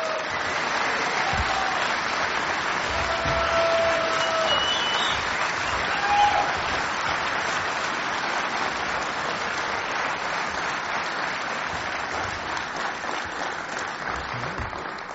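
About a thousand homebrewers applaud in welcome as the founder of the Sierra Nevada Brewing Company is introduced. Dense, sustained clapping stays loud and even throughout, easing slightly toward the end.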